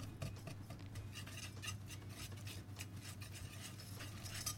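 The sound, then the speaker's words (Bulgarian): A utensil stirs a milk-based cream in a pot on the stove as it thickens, making soft, repeated scraping strokes against the pot. The sound is faint and steady. “Когато сместа стане еднородна, ето тогава вече включвам котлона и продължавам да бъркам, докато крема не се сгъсти.”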